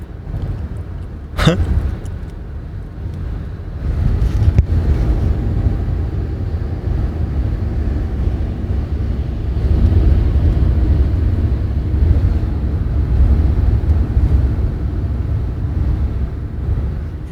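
A car driving across the border at Basel gives a steady low road rumble that stays fairly loud throughout, with one sharp click near the start.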